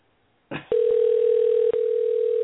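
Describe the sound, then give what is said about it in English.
A telephone dial tone hums at one steady pitch for about two seconds after a short rustling noise, with a brief dip partway through. “the Greek god Papadon, who I am dialing up right now. Hopefully it's the right number.”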